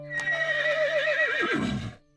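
A horse neighs in one long, loud whinny. The wavering tone drops in pitch near the end and breaks into a rough sputter before it stops.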